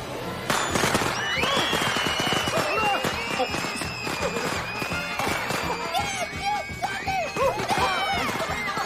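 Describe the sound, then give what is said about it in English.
Firecrackers exploding in the grass on a lawn among guests, a dense, loud run of rapid cracks and pops mixed with whistling tonal sounds that continues throughout. “Firecrackers explode in the grass at their feet and everyone scatters as Pepito leaps with delight.”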